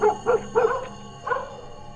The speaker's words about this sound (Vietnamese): Con chó cứ sủa lên ầm ầm, nó cứ sủa từng đoạn dứt quãng, rồi âm thanh cứ như tắc nghẹn ở trong cổ họng.